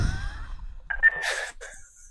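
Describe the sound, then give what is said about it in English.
A voice imitates a snorting sound: a short, harsh nasal burst about a second in, followed by a brief breathy tail. “That noise happening in his head as he snorts a turd.”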